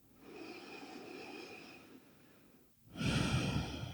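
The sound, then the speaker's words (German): A deep breath is drawn in slowly and then let out during a guided relaxation exercise: a soft, airy inhale, a brief pause, then a louder rushing exhale, with no talking. “Und atme nochmal tief ein und aus.”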